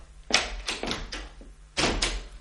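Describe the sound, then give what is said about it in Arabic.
A door being closed: a few knocking thuds and clatters in quick succession, then a firmer knock near the end, over a low steady hum. “اقفل الباب وراك.”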